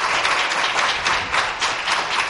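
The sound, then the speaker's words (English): A church audience claps in praise to the Lord at the close of a prayer: a sustained wash of many hands clapping at once, loud and even, with slight swells in intensity. “Give the Lord a great big hand clap of praise, and you may be seated.”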